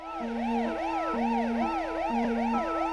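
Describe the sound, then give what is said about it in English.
Siren wails from emergency vehicles inside a rock song. The pitch rises and falls in a steady, repeating cycle, loud and continuous over a sustained low instrumental tone. “And the reappearance of those sirens usher us into the final verse.”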